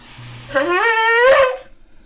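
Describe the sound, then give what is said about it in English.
A single long tekiah blast on a ram's horn shofar, a buzzy, brassy tone that swoops upward at its start, holds steady, then swells louder near the end before cutting off. “Here's a ram's horn blast. So the first blast is called tikia, and it's going to be three parts,”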